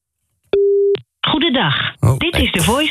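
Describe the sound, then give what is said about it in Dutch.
A phone call failing to get through: a single steady mid-pitched tone lasting under half a second, a brief silence, then a recorded voice speaking. “Ik kan nog even een keer proberen te bellen natuurlijk met Marieke.”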